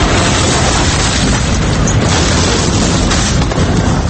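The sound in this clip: A shell explosion during the siege of Vukovar in war documentary footage: a loud, dense, sustained rumbling roar of blast noise filling the whole clip without a break.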